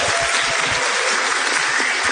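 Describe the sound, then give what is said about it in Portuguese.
Audience applause: dense, steady clapping from a crowd that stays loud and even from start to finish, with no voices over it. “o que iria dizer a plateia depois do aplauso natural e espontâneo que ela vai fazer?”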